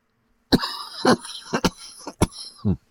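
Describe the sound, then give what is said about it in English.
A person coughs repeatedly while testing cannabis concentrate with a dab tool. About six sharp, dry bursts come in quick succession with short uneven gaps, loud and clear, with no talking. “I should probably stop talking until I finish coughing.”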